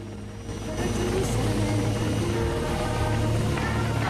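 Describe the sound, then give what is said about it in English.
A helicopter taking off from a mission. A low, steady rotor and engine drone swells after about half a second and then holds loud and constant. “As the chopper takes off, a little mission boy runs forward and waves goodbye to it.”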